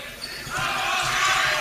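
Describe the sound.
A basketball is dribbled during a boys' high school sectional game. A few dull bounces sit under a steady, loud wash of crowd noise.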